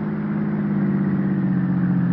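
A car drives up to a house with a steady, low engine hum and no clear change in pitch.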